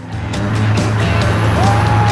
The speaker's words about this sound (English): Two cars drive side by side down a highway.